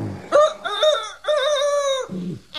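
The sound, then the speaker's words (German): A person imitates a rooster's crow as a wake-up call: a loud, drawn-out, strongly tonal cry in three linked phrases, followed by a short, low note. “Erwachet, erwachet, es kräht der Hahn, die Sonne betritt ihre goldene Bahn.”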